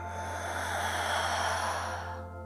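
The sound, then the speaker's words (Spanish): A deep exhale through the mouth during a guided relaxation breathing exercise: one long, steady, breathy whoosh lasting about two seconds, easing off at the end over a low steady hum. “Inhala profundo por tu nariz. Y por tu boca suelta.”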